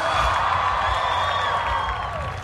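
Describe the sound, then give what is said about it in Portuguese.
Cheering and applause from a church crowd at a Catholic gathering, a steady, loud wash of crowd noise with shouted voices rising above it. “Uma salva de palmas para nossa Santa Igreja Católica, cheia de santos.”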